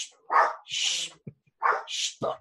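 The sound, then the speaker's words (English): A small dog barks in a quick series of several sharp, high yaps with brief gaps between them, fairly faint and with no talk over them. “My dog, that little fucking prick that's barking”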